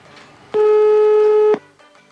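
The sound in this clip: A telephone call ringing before anyone picks up: one loud, steady buzzing ring tone lasting about a second, then quiet.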